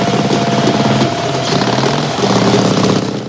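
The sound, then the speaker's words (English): A chopper motorcycle engine rumbles loudly and steadily, with a fast, pulsing throb that stays strong for the whole stretch and eases off slightly at the end. “Ben and Mally jump on the chopper.”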